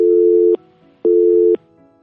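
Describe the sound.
Telephone busy signal heard when calling a studio phone line: two loud beeps of about half a second each, separated by equal pauses, at a steady mid pitch with nothing else heard.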